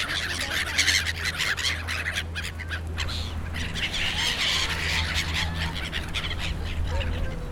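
Seagulls squabble over pieces of bread at the edges of ponds. Many harsh, overlapping squawks and cries rise over a steady noisy background with a low hum beneath.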